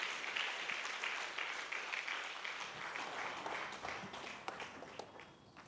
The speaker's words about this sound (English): Let's put our hands together, rise to our feet one more time. Welcome him this morning